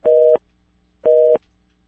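Telephone busy signal after a dropped call: two loud, identical mid-pitched electronic beeps, each about a third of a second long, separated by silence.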